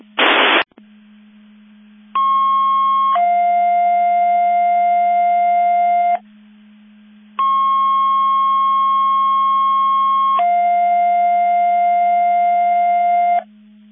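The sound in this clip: Fire mutual aid box alarm alert receivers sound test tones over a radio channel: a brief noise burst, then a steady low hum beneath two long two-step tone sequences, each stepping from a higher pitch to a lower one.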